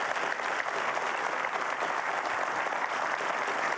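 Studio audience applauding to welcome a guest, dense, even clapping sustained at steady loudness for the full length with no voices over it.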